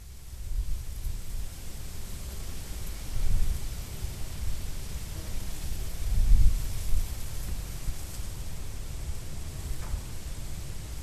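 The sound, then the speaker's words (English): Wind blowing through a field of Khorasan wheat makes a steady, soft rustling hiss with a low rumble beneath it. A couple of stronger gusts swell and fade. “It's a one-minute recording of Khorasan wheat blowing in the wind.”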